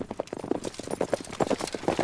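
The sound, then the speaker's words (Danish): Clip-clop of a small horse's hooves: a steady, rhythmic run of many sharp knocks, fairly loud and alone, with no voices. “der kom der en lille hest”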